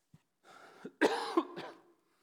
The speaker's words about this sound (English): I've got this dry cough that just will not go away, okay?